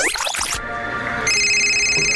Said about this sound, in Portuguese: Quem tá me ligando essa hora? Alô?